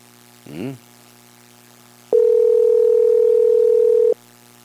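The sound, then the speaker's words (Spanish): Ringing tone of an unanswered telephone call: a single steady, level electronic tone lasting about two seconds, preceded by a brief voiced sound and quiet line hiss. “Estamos llamándole al profesor Elmer Tutus, no me quiere contestar. Ya pues Elmer, contesta, carachos, contesta.”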